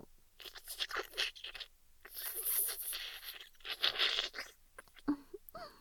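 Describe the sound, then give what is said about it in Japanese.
Sipping tea makes a few soft, noisy slurps, each a short breathy burst with gaps between them, fairly faint and with no talking over them. “こんな風にお茶をすする音や”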